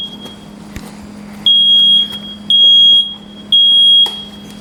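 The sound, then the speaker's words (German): Smoke detector alarm sounding three loud, long, high-pitched electronic beeps at an even rhythm, each lasting nearly a second, with short gaps between them over a low background hum. “Genau, das ist der Rauchmelder. Ihr hört, wie laut der ist.”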